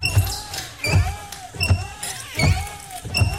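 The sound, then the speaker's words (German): Worn car windshield wipers squeak in a steady rhythm, five strokes each with a thin rubbery squeal and a dull thump at the turn. “So klingt es, wenn Ihr Auto nach neuen Scheibenwischern fleht.”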